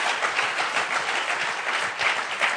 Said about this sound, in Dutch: Give her a hand. Geef haar een applaus.